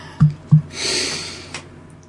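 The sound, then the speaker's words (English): A deep breath in, drawn after two short, sharp sniffs; the inhale is a soft, airy rush lasting about a second, then it fades, with no talking. “Would you like to take a deep breath with me?”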